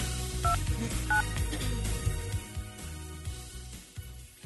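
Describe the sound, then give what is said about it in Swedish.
Telephone dialing tones as a phone number is called: two short, clear dual-pitch keypad beeps near the start, then low, uneven background sounds with no speech. “nu har jag tänkt att vi ska ringa en, nu ringer vi en, en tjej som är nominerad”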